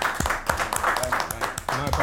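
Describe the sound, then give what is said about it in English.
Scattered claps greet a player walking onto the pitch for an amateur football team. They are mixed with people talking and calling out. “Can we clap him on the pitch, please?”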